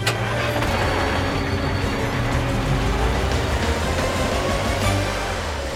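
A toy truck drives through city streets, giving a loud, steady engine rumble with a dense wash of traffic-like noise that runs unbroken and without talk.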